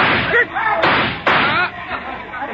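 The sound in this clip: A gunshot in a radio drama: two sharp, loud cracks cut through a man's shouted, angry voice in quick succession.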